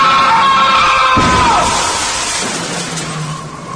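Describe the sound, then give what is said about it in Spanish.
A speeding car hits a person crossing the street in a staged horror scene: a loud sustained tone bends downward as a heavy thud lands, then a broad noisy wash slowly fades. “cruzó rápidamente la calle, pero sin fijarse que venía un auto a toda velocidad, el cual lo impactó matándolo al instante.”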